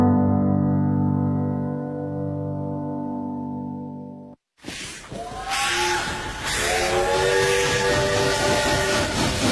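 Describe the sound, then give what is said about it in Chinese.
A train's steam whistle sounds as one long, steady, rich tone for about four seconds. It cuts off briefly, then a loud, noisy rumble and clatter of the train follows, with fainter whistling tones running through it. “伴随着这火车的汽笛声”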